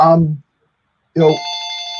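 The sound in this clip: A telephone rings with an incoming call on a call-in line. Two loud bursts are separated by a brief silence, and the second settles into a steady, sustained electronic tone.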